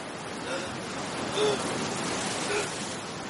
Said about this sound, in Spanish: Las olas llegan hasta él mojando la profunda herida que le cruza la palma de la mano.